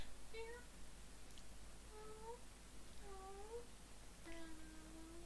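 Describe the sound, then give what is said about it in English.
A person imitates a cat, giving four drawn-out, whiny meows spaced about a second apart, the last one longer and steadier, over a faint background hiss. “That cat's me. I meow in my own nude ASMR video. I go,”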